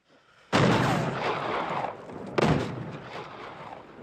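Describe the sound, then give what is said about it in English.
Two loud gunshots from a film, each a sharp blast with a long booming tail. The second shot follows about two seconds after the first. “Then he falls down backwards. That's real. That's real. Steve lets off another shot.”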